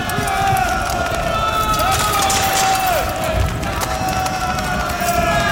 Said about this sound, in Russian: Юнкера, размахивая оружием, бегут по коридорам и залам училища к выходу.